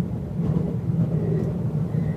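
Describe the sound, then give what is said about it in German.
Steady low rumble of a modern train running on a historic Alpine mountain railway beyond Garmisch-Partenkirchen, curving around the Wetterstein range; a dense, even drone continues without clear breaks. “In einem modernen Zug zwar, aber auf einer historischen Strecke.”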